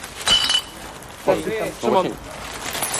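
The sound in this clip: Glass clinking as bottles are picked up and handled during a litter cleanup by the water, with a bright clink early on followed by people talking.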